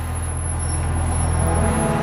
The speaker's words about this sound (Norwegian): Nå ankommer bilene fra slottet, Ris kirke.